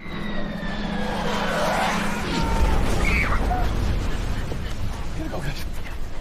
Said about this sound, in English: Behind them, bombs drop over the highway, leaving thick smoke.